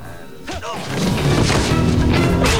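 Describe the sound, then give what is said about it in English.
A loud crashing thud as a man headbutts one of his captors during a fight, heavy impacts followed by a dense, rumbling wash of noise that grows louder and stays loud. “Alex spots Kelly, and after sharing a look, he headbutts one of his captors.”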